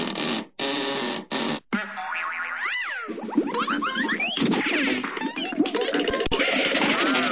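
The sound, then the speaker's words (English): Cartoon sound effects burst out all at once in a chaotic jumble. Loud bursts come first, then many boings, whacks, scratches and sliding whistle-like sweeps rise and fall and overlap without pause. “You pulled the wrong handle. You let all the sound effects loose.”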